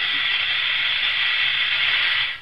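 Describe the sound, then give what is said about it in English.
Loud, steady hissing as a hot chemical solution, kept just below boiling, is added to another solution; the broad airy hiss runs continuously without talk and tapers slightly at the end. “Stand back now. I'm about to add the hot solution to the other.”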